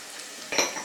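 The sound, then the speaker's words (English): Chilies, garlic and ginger fry in oil: a soft, brief hiss that flares into a brighter sizzle about halfway through. “We put everything in the oil.”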